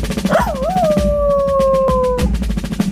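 A dog howls in a short jingle, giving one long howl that wavers at first and then holds a steady tone that sinks slightly, over a continuous rhythmic musical backing.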